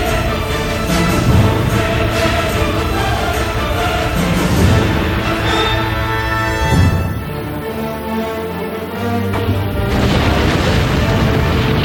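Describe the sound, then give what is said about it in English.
The Little Boy atomic bomb explodes in mid-air over Hiroshima after a parachute drop, set to detonate 576 meters above the ground, producing a massive, continuous rumbling roar that stays loud and dense throughout. “For the bomber to have enough time to flee the explosion, they dropped the bomb via a parachute. To make the detonation stronger, the bomb was set to go off 576 meters above the ground.”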